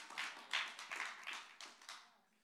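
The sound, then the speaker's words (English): A church audience claps during a sermon in several uneven bursts of sharp hand claps. The bursts are fairly quiet and trail off toward the end. “Well, okay, we can clap for that.”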